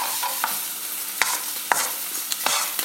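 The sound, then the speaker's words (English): An omelette fries in a pan over a gas flame at full heat and gets flipped while still runny. A steady sizzling hiss carries several sharp, separate scrapes and clicks from the turning. “The gas is still blasting full pelt. And while it's still a wee bit runny, I'm turning it over. I've just turned it over.”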